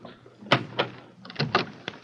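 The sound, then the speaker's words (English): A door being opened, heard as a few sharp clunks and thuds in quick succession with short pauses between them, with no voices. “Please open the door.”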